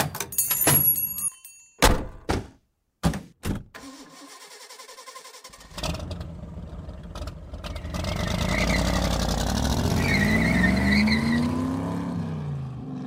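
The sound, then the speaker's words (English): A car drives off: several sharp thunks, then the engine starts and revs into a loud, sustained roar that rises and falls as the car pulls away. “I see your bodyguard drove off.”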